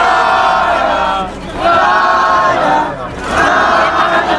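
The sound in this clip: A crowd chants a football-style welcome for Clara Ponsatí, loud massed voices swelling and dipping in about three repeated surges.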